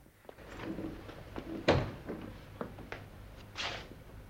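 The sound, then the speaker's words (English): A prison cell door is opened: a few faint clicks and knocks, with one sharper clunk near the middle, all quiet throughout. “Sands opens the door to Davis's cell and stares down.”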